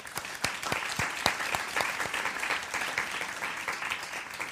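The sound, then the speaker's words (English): Audience applause: dense, steady clapping from many hands throughout, fairly soft, with no talk over it. “I find that applause is for her.”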